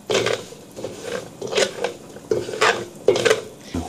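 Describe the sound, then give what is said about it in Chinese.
Rice is stir-fried in a pan until fragrant. A utensil scrapes and clatters against the pan in repeated, uneven strokes, some louder than others. “香味一出就可以放入炒米，你看滋滋冒泡了。”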